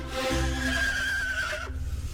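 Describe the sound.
A horse whinnies, an eight-year-old adult stallion once used on patrol duty. The neigh is a single drawn-out, wavering call over a low background rumble, with no voices.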